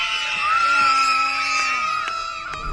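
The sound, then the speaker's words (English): Children at a summer camp, bobbing in the water by the docks, shout their team battle cry together: a loud, sustained, high-pitched group scream lasting a few seconds. “Can I hear your battle cry?”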